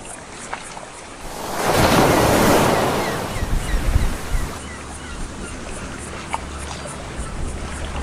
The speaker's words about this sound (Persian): بشنوید، این صدای خشم دریاست وقتی کسی می خواهد مرزهایش را به چالش بکشد.